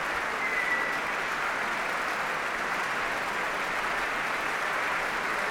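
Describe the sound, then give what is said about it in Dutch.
A concert hall audience gives a standing ovation, and dense, continuous applause holds at an even level from start to finish. “een staande ovatie in het concertgebouw voor Dima Slobodenjuk”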